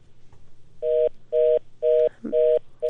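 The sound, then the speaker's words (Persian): Repeating telephone tone after a call is cut off: four evenly spaced, steady mid-pitched beeps, with a fifth starting at the end, over a low background hum. “خب تماس ما با آقای بیژن قطع شد.”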